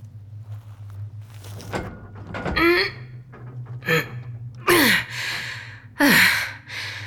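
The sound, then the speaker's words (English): Someone strains to force open a stuck gate in thick vegetation, the gate seemingly fused to something: breathy gasps and effortful grunts with several short bursts of scraping and rattling between them. “Hey, look. A gate. I'll try to open it.”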